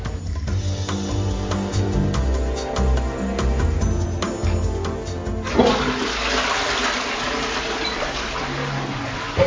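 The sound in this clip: A toilet flushes in a downstairs bar restroom with a loud, steady rush of water that fills the whole stretch. Partway through it shifts to a brighter, hissing refill.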